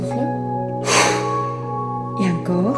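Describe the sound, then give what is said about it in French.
A sharp, forceful inhalation taken as a deep energetic breath during a guided breathing meditation for boosting immunity, heard as a short loud burst of breath noise over a steady humming drone, followed by a brief vocal sound. “Donc maintenant, j'inspire et j'expire trois fois d'une façon plus énergique. Donc inspiration profonde.”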